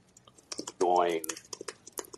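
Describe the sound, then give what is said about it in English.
Computer keyboard typing comes through as many quick, irregular key clicks, and a brief tonal, voice-like sound rises midway through. “Are you typing, sir?”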